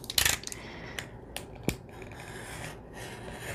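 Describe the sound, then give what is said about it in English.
Scissors snip a section off a manila file folder in a few short, crisp cuts. The first cuts come as a dense cluster, followed by quieter, isolated snips over faint background noise. “And so what I'm going to do is I'm going to snip off a section. Okay, here we go.”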